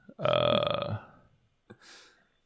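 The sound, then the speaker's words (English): A single long, loud burp with a buzzy, ragged voiced tone lasts nearly a second, followed after a pause by a brief, softer breathy noise. “Sorry, I got a lot of burps.”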